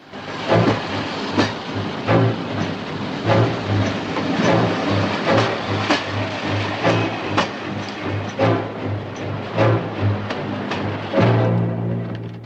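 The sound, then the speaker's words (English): A passenger train with compartments rolls along its rails in a steady low rumble and hum, with many regular clacks from the wheels passing over rail joints and a brief swell in loudness near the end. “The train continues its journey.”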